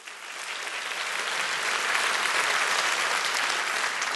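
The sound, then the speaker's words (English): Applause from a church audience welcoming a pastor to speak, starting thinner and quickly swelling into a full, steady roar of clapping that holds strong to the end. “So join me in welcoming Pastor Brian Suter.”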